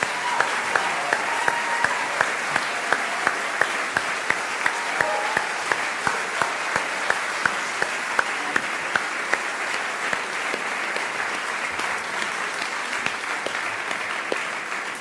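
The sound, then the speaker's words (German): Big applause for the singers at a church service: dense, steady clapping that fills the whole stretch, with sharper individual claps standing out now and then and no break in the sound. “Lass uns mal richtig feiern und Dankeschön sagen. Riesenapplaus, großes Kino.”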